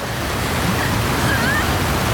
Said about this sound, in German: Lassie schwimmt jetzt gegen den Strom und versucht, Mary zu retten.